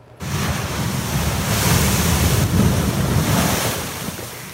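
Waves surge and a strong northwest wind gusts against the Stanley Park seawall at high tide, forming a loud, continuous roar of surf and wind rush that swells slightly through the middle.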